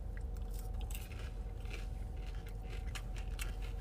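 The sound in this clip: Crunchy biting and chewing on crispy tater tots: a dense run of crackling crunches over a steady low rumble, loud and continuous, with no talk.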